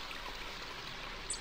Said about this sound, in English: because every time the sound effect for this river starts playing, the help guy tells you to quit.